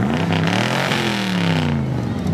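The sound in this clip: A 1981 DeLorean DMC-12 runs at the Red Hill Dream Cruise car event. Its engine gives a steady, rumbling drone with strong low harmonics that holds loud throughout.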